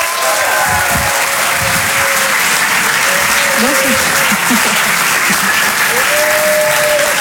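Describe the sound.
Applause from a live audience greets a comedian taking the stage at the Apollo Théâtre: dense, continuous clapping at an even, loud level for about seven seconds, with voices audible through it.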